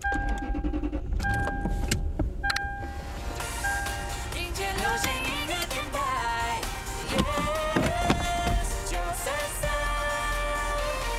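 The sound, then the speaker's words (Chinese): A car driving as a parent heads to kindergarten to collect the children in a radio story: a steady engine and cabin rumble runs beneath music with clear melodic tones throughout. “星期五赶完了工作，我开车到幼儿园接孩子们。”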